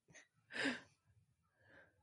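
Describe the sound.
A single sneeze from a person who was trying to hold it back: a short breathy intake, a sharp, noisy burst, then a softer trailing breath, all fairly faint.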